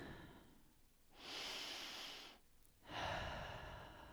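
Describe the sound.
A person takes a deep breath. Two long, airy breath sounds, in and then out, are separated by a brief pause and stand alone without speech.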